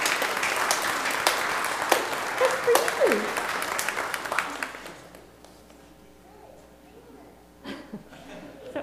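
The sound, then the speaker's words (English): Congregation applause for a baby at a church baptism, a bright burst of clapping for about five seconds that fades out, followed by quieter talk. “And can you give little Annie a hand?”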